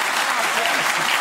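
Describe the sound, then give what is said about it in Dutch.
Loud, dense applause from a studio audience after a contestant is announced, continuous clapping for just over a second with no talk over it. “Applaus voor Jeroen Otten.”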